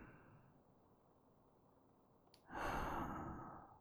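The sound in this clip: Slow breath in: after a quiet stretch, a soft airy inhale swells up and continues steadily for over a second, easing slightly toward its end.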